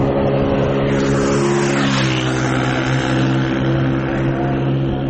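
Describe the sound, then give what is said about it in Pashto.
A motorcycle ridden very fast gives a loud, continuous engine roar: a steady, dense drone with strong low harmonics that holds its level throughout. “د خپل زړه موټر سایکل په واسطه په خورا تیزی روان دی”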